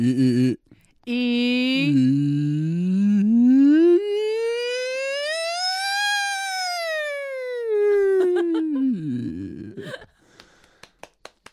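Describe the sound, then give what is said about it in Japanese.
A human voice imitates a siren. It begins low with a few short wavering pulses, then glides in one long, smooth rise to a high pitch and slowly sweeps back down. It ends in a brief rough break and a few soft clicks. “このあのサイレンの音を出してる時のコツは、下の時にはしっかり地声でイーイーって言ってから、上に行く時にあのそこの強いイ”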